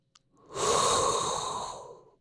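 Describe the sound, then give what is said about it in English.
A single long inhaled breath, breathy and steady, swelling quickly and then tapering off slowly, heard alone without talk. “And that is inhale a hot breath”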